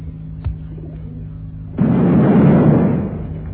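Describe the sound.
A bomb hidden in a stove explodes in a sudden loud blast that rumbles on for over a second before fading. A faint click and a steady low hum come before it.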